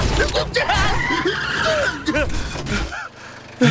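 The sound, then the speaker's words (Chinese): A car speeding and skidding through a forest: squealing tires and a revving engine under loud, excited voices throughout. “刚才真是太危险了， 竟然在森林里飙车！”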